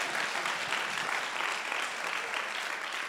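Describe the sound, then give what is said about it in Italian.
An audience at a church meeting applauding together, a steady wash of many hands clapping at an even, moderate level from start to finish. “Ah ok, applaudiamo insieme.”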